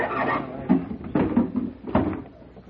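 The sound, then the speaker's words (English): Wooden creaks and knocks as a crate holding an organ is opened, a few dull thuds and scraping sounds in an uneven sequence. “abra la caja. Look, tell him to take it easy opening that crate. I don't want anything to happen to that organ.”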